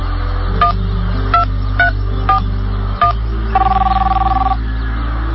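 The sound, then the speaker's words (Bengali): A telephone number being dialed: five short keypad tones spaced at uneven intervals, then a longer, steadily pulsing tone, all over a low, constant hum with no talking. “ঠিক আছে, আমি phone দিচ্ছি।”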